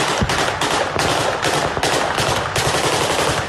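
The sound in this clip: Dense machine-gun fire with training ammunition during a military exercise in a village, heard as continuous, loud, rapid rattling bursts throughout, with no pauses or talk.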